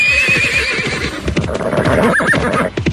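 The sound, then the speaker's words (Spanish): A horse whinnies in a high, wavering neigh over a steady run of hoof clip-clops that sound the whole time, with a brief sharper squeal near the end. “José Magdaleno se trepó un caballo”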